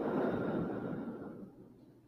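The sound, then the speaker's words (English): A slow, deep breath is let out through the mouth after being held, a soft, breathy rush of air that starts fuller and gradually fades away, faint and unaccompanied by talk. “I want you to take a deep breath in through the nose. Hold it and out the mouth”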